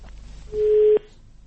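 A telephone line tone sounds while a call connects on an Arabic religious call-in program: a single steady, mid-pitched tone lasting about half a second, cut off by a click, over a low pulsing hum.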